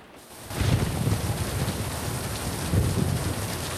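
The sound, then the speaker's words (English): Heavy pouring rain hammers on a van, a dense, steady roaring hiss that swells in after a brief quieter moment and holds loud, with a low rumble beneath. “it's difficult to see through the pouring rain”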